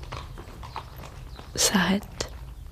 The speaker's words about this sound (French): Ton petit cheval souffle, halète,